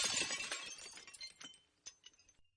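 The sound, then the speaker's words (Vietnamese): A water kettle is thrown against a wall and smashes on the floor: a bright shattering crash, then scattered clinks and tinkling fragments that thin out and fade over about two seconds. “Cái ấm nước bay trượt qua đầu Mai, đập thẳng vào bức vách kêu choang một tiếng, rồi rơi xuống đất bể tan tành.”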